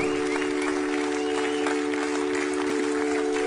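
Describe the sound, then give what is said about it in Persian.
A crowd applauds two boxers after a bout with steady, dense clapping that continues unbroken, over a low steady hum. “آفرین قهرمانا، حالا ببینید چطور شما رو تشویق میکنم.”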